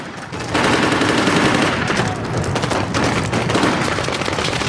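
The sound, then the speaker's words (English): Gunfire exchanged between a gunman on a balcony and Marines: dense, continuous automatic bursts and cracking shots, loud and unbroken throughout. “a man fires at the Marines. The Marines return fire.”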